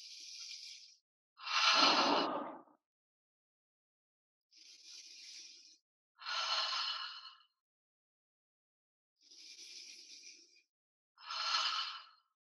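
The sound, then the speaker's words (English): Slow, deep breaths taken during a guided breathing exercise: three unhurried cycles, each a soft airy breath followed by a louder, longer one, with quiet pauses between them. “You're going to take three breaths here.”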